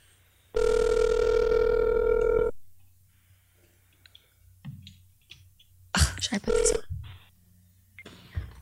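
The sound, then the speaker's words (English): Ringback tone of an outgoing phone call: one long, steady ring lasting about two seconds, followed by quiet and then brief muffled sounds and faint voices. “Okay, I'm calling him. Let's see if it goes.”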